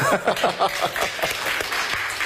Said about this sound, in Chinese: 谢谢你们稀稀拉拉的掌声，谢谢。